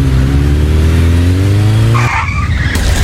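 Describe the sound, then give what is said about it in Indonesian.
A motorcycle skids before falling over: a loud, steady engine drone runs for about two seconds, then gives way to a higher tire squeal. “Aduh, yang kok kamu bawa motornya gak bener sih? Jatuh kan?”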